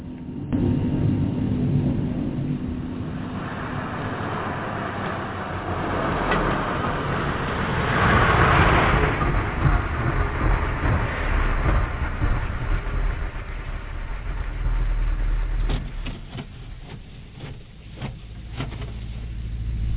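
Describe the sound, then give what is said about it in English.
Car driving on a road at night in bad weather on Halloween: a steady, low engine rumble that swells mid-clip, then thins out toward the end with a few faint clicks. “Oh, boy, what a night to be driving.”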